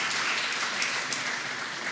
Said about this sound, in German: Und 75, ja bitteschön, also das hat schon durchaus einen Beifall verdient.